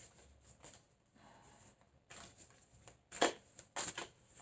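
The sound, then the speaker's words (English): A deck of oracle cards is shuffled by hand in a few separate bursts of crisp riffling and slapping, with quiet gaps between them. The bursts start faint and grow louder toward the end. “Let me go ahead and get an oracle card and see what goes on. Check the oracle card.”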